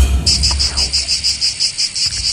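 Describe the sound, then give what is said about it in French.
Cicadas chirping by the sea in the south of France: a loud, high, buzzing trill pulsing in a fast, even rhythm of many beats, heard alone without voices. “Bah oui, c'est les cigales, bien sûr.”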